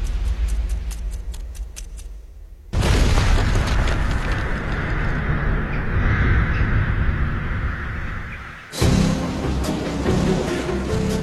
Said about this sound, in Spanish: El drenaje del lago Tim revela que la bomba se configuró para que explotara en la parte más profunda